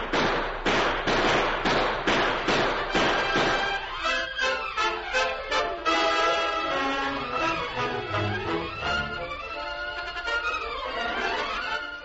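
Gunshots ring out in a Lone Ranger Western radio drama shootout: a rapid volley of many sharp, loud cracks in quick succession, followed by layered tonal sound as the firing stops.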